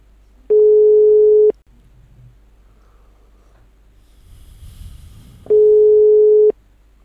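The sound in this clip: Ringback tone of a phone call that nobody answers: two long, steady, even electronic beeps about a second each, separated by a pause of several seconds with faint breathing-like noise.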